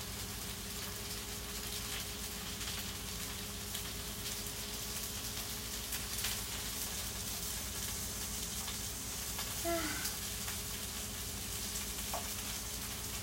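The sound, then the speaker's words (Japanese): Sweet potato sizzling on a grill as it is turned over, a soft, continuous crackling hiss with scattered tiny pops, staying faint and even throughout. “今さつまいも裏返してるんですけど、若干ね、やっぱ火の当たるところによって加減が違うっちゃ違うんですけど、若干いい感じに焦げ目がついてきました。”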